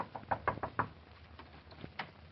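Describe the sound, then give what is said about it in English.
Knocking on an old-fashioned kitchen door: a quick run of about five faint raps, followed by a few sparser, softer knocks. “Imagine a salesman of tomorrow knocking at the door, the old-fashioned kitchen door.”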